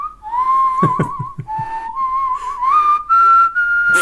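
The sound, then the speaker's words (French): A person whistles a melodic tune, clear and fairly loud, with the pitch stepping up and down between sustained notes and a few short quick ones. “En tout cas, tu siffles très bien”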